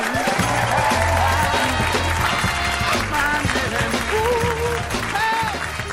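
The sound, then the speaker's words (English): Audience applauding to welcome judges onto a show, a loud, steady wash of clapping that holds throughout. “Please join me in welcoming Malcolm Gladwell, Anna Gasteyer, and David Patterson.”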